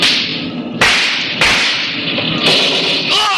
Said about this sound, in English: They're shooting at us. Tommy guns.